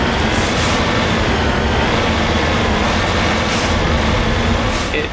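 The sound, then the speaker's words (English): A tank rover drives in a video game, giving a loud, steady, dense rumbling drone that holds without breaks from start to finish. “The tank rover is always a fun time.”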